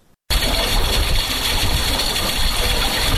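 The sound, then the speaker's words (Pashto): A drip irrigation water system runs on farmland: a steady, loud rushing of water with a pump-like hum, starting abruptly after a brief quiet and continuing unbroken. “دغه ژغ د اوبو څاڅکي سیستم دی چې د انرژي یا اوبو د ضایعاتو د مخنیوي لپاره یو مورژنه چاره بلل کیږي.”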